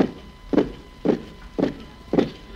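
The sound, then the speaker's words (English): Footsteps of people marched out to a courtyard at sunrise land in a slow, even series of heavy, dull thuds, each about half a second apart, with quiet between the steps. “the next morning, as the sun rose, they blindfolded us and marched us out to the courtyard.”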